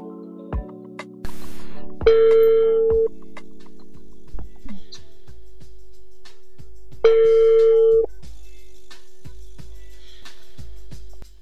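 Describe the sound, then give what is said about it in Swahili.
Telephone ringback tone heard while a call is being placed: two steady, mid-pitched electronic rings of about a second each, several seconds apart, with quiet background noise between them. “Ngoja nimpigie simu alafu tuweze kupiga mastori kibao.”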